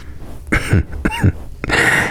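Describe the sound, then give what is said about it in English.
Coughing from someone with a mild cough and sensitive lungs: a few harsh, abrupt bursts with throat-clearing roughness, separated by short pauses. “I picked up a cough. Nothing too much, but if I inhale too much, then I cough.”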